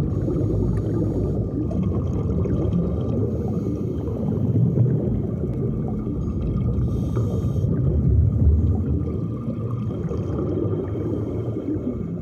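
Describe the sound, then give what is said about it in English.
A scuba diver breathes underwater, and the exhales leave his mask as bubbles: a continuous loud rushing and gurgling rumble with gentle swells that never stops for the whole stretch. “That was the sound of a scuba diver breathing underwater. A scuba diver. So those bubbles coming out were actually his exhales coming out of his mask.”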